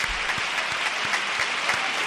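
Audience applause at the Gran Teatro Falla during the Cádiz carnival, following a pasodoble verse, a brief, dense and even burst of many hands clapping at moderate loudness.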